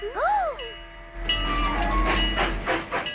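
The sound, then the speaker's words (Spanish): A train departing: a short warbling tone that rises and falls opens the sound, then a run of rhythmic hissing chuffs and rumble as the train pulls away. “¡El tren se está yendo!”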